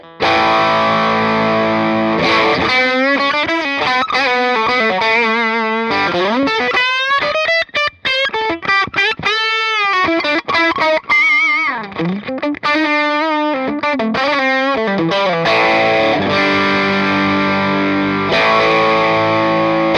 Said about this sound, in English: A little overdrive on the bridge. Sounds like this.